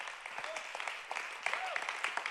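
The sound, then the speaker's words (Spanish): Applause from a church audience, a dense steady patter of many hands that builds slightly louder toward the end, with faint voices calling out over it. “dale un aplauso al Rey de Reyes, dale un aplauso al Señor de Señores”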